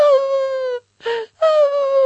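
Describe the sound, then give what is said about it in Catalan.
A voice imitates a fox howling: two long, loud, wavering wails separated by a short, breathy sob-like burst. “Llavors la guineu va començar a odolar.”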